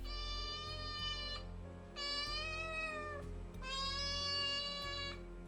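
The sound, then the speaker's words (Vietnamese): A cat meowing from the upper house: three long, drawn-out cries with rich harmonics, each lasting over a second and separated by short pauses, clear and unaccompanied by talk. “thì từ trên nhà trên có tiếng mèo kêu lên vang vọng.”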